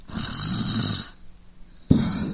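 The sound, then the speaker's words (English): A voice imitates snoring: a long, raspy, throaty snore lasting about a second, a short pause, then a sharper snorting burst that starts a second rasp. “At the moment, it's not even about the snore. It's about the noises that you make. It's like you go,”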